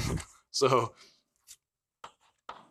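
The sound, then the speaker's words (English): A few short, scratchy strokes sound as someone writes down notes during a maths lecture on weights and the sigmoid function. The strokes come after a brief stretch of voice and are quiet, separate taps. “So how else, let me write down what I've done here.”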